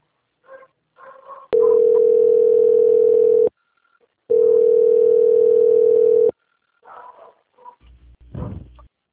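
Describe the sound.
A telephone line tone plays while a call is being transferred: two long, loud, steady beeps of about two seconds each, separated by a short silence. Faint scattered sounds come before and after.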